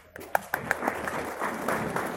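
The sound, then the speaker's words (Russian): Applause in the hall at a conference of PR specialists. A few sharp, separate claps open it, then the sound fills in quickly to steady, dense clapping that continues to the end. “Друзья, оживим друг друга аплодисментами.”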